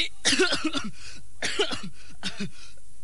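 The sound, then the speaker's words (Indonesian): Coughing from a person standing in a drill formation: three bursts of harsh coughs, the first a quick run of several, then two shorter ones, with quiet pauses between. “Hei, kenapa ini? Baris kau pakai batuk-batuk segala.”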